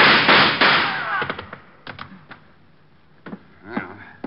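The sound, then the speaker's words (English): Gunshots ring out as a suspect breaks away during an arrest. A dense burst of sharp cracks comes first, then a scattering of separate, sharper shots that trail off, more sparse and quieter. “He's got a gun! Blow him up!”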